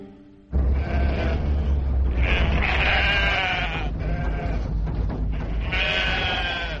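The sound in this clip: Sheep bleating loudly in drawn-out, wavering calls that run almost without a break, with a steady low rumble underneath.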